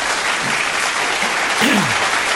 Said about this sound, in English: Thank you so much for that applause.